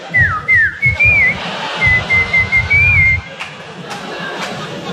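A whistled imitation of a whippoorwill bird call: short rising-and-falling whistled phrases, then a longer, steadier wavering whistle over a low murmuring rumble. After it stops, only a few faint, brief clicks remain.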